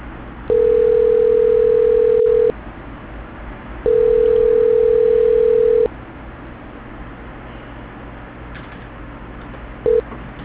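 Telephone transfer tones on a hissy, narrow-band phone line: two long, steady mid-pitched tones of about two seconds each, separated by line noise, then a brief blip of the same tone near the end.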